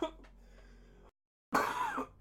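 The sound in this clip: A person with a lingering sinus infection clears their throat and coughs in two bursts separated by a brief silence. The second burst is louder and harsher.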